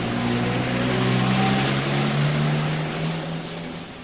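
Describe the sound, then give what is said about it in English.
A woman drives her car away. The engine gives a steady low drone over broad road noise that slowly fades toward the end. “She jogs to her car and gets in. She drives away.”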